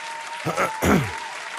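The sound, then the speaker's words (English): A double hand clap, two sharp, loud bursts in quick succession, with a voice mixed in over a faint, steady background tone. “Yeah, double hand clap.”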